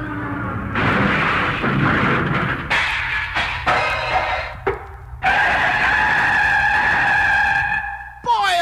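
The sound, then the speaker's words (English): A cartoon plane crash-lands after its motor conks out. Loud bursts of rough, skidding and crashing noise come first, then a sustained high whining tone, cut off abruptly near the end. “My motor's conking out. I gotta make a forced landing. There's a clear spot in the fog. I'll head down through that.”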